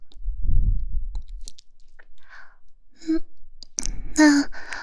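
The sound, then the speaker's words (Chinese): Someone chews a bite of a sandwich with bacon and cheese, with a soft low crunch, then sparse wet clicks of the mouth, and a short hummed voice near the end. “里面啊可是加了培根和芝士呢。吃一口，嗯，再吃一口试试嘛。”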